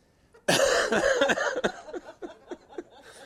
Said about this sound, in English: Excuse me, I had to cough.